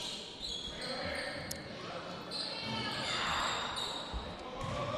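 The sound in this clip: A basketball being dribbled during a game, a run of quick, solid bounces. Voices talk over the bouncing and a steady crowd-like wash sits beneath it.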